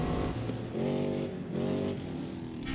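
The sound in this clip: Engine of a Polaris RZR Pro R side-by-side running, a loud continuous throaty drone with strong harmonics whose pitch swells and eases back twice, as if revved, with no talk over it.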